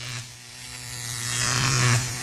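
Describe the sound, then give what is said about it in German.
An electric shaver gives a low, steady buzzing hum that swells in loudness toward the end and then eases off slightly. “Was ist das? Ein Rasierer.”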